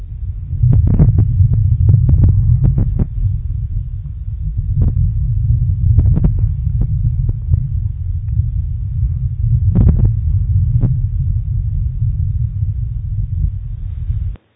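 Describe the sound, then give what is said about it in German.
Amplified EEG brain waves played back as audio: a deep, continuous rumbling throb scattered with sharp clicks, fairly loud and alone, ending abruptly. “Wenn man EEG einfach nur verstärkt und abspielt, dann hört sich das so an.”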